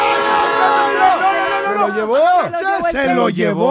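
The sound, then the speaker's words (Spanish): A train passes with its horn sounding in long, steady, blaring tones, while loud excited voices shout over it. “¡Ey, ey, ey! ¡Ey, cuidado! ¡El tren!”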